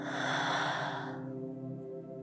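A deep breath exhaled through the mouth during a guided meditation, one soft breathy rush lasting about a second that fades away, leaving a quiet steady humming tone underneath.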